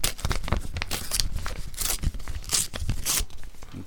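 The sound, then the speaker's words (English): A paper envelope being torn open, with a few sharp ripping bursts and crinkling paper between them, fairly soft and uneven in rhythm. “Okay, open the envelope.”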